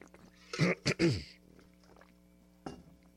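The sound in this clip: A person clears the throat in two rough, fairly loud bursts, followed after a pause by one brief, fainter rasp.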